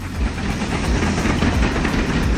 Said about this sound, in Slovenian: Pazi, da se ne bi ti mislil, da tu vlaki vozijo počasi. Tu je na špici. Hitreje ne morajo voziti.